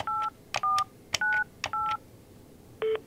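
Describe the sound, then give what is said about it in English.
Telephone keypad tones dialing a hotline number staffed by volunteers in France: four evenly spaced two-tone beeps, each with a short click before it, then one different single beep after a pause. “The French number is a hotline staffed by volunteers who are called telephone ambassadors. Dial it and...”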